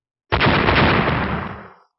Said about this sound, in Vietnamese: Một tiếng nổ cực lớn hoàn toàn chấn động thiên địa vang lên